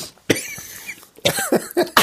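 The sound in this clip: A coughing fit brought on by laughter, with choking, harsh, breathy coughs: one long rasping burst, a short pause, then a quick run of several shorter, loud coughs.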